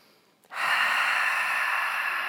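A single sharp, forceful exhale during a seated Pilates abdominal exercise at a desk. It starts abruptly, then holds as a steady, loud, breathy hiss with no talk.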